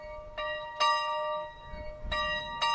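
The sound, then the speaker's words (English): A school bell rings with four clear metallic strokes in two pairs, each with bright, lingering overtones that hum between strikes. “The school bell represents the Saturday activities.”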